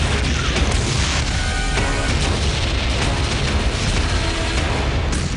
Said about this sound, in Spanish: Había un crucero británico justo detrás de nosotros y sus cañones disparaban por encima de nuestras cabezas.